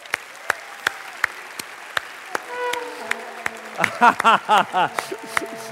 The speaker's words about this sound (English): Oh, they got the horns. That's good. I think that was a horn, or was that a backdoor trumpet? I wasn't sure exactly what that was. It was a horn and a vuvuzela, and I heard somebody ululating.